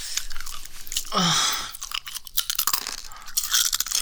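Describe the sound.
Chewing food: loud, crisp crunches and bites repeat close together in an irregular rhythm, with no talking.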